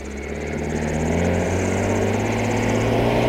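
Engines of approaching vehicles, a low, steady tonal drone that swells gradually louder, heard alone without talk.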